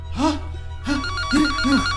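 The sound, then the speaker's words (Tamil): A telephone rings outside a door, giving a repeating electronic tone over a steady low hum, with other harmonic sounds running alongside it. “கதவுக்கு வெளியே phone சத்தம் கேக்குது.”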